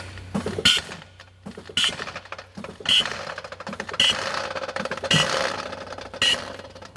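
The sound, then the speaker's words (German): An Audi's suspension rises to normal ride height in a hall after a button press: a mechanical whirring hum broken by six regular clicking, clunking bursts about a second apart. “Und deswegen mussten wir das Fahrwerk erstmal hochfahren, bevor es losgehen konnte. Das ist korrekt. Im Endeffekt einen Knopf gedrückt und dann fährt er auf eine normale Fahrt.”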